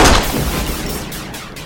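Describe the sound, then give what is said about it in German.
A single gunshot fired at a man in a German radio drama: one loud, sharp blast at the very start, followed by a long, slowly fading noisy tail. “Es tut mir leid. Ich musste schießen. Sie hätten sich sonst umgebracht. Haben Sie keine Angst. Meine Kugel hat nur Ihre Schulter getroffen.”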